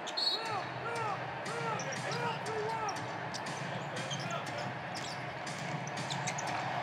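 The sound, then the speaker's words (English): A basketball bounces repeatedly on the court during an NBA game involving the Utah Jazz, the steady dribbling thumps running under a play-by-play commentator's voice and crowd noise. “Conley, off foot jumper, no good. Rudy offensive rebound. Dribbles, settles himself, dunks, and he's fouled by Jeff Green.”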